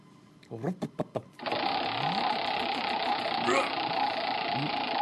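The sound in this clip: A wheel being spun, a steady, rapid whirring clatter that starts after a few short bursts of talk and runs on with voices over it.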